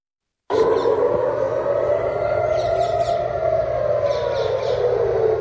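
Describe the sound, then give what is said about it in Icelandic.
Civil defense air raid sirens sound in Israel during Iranian attacks. A loud, sustained wail starts abruptly after half a second of silence and holds steady, its pitch wavering and drifting slightly. “Sírenur hafa ómað í Ísrael í morgun vegna árása Írans.”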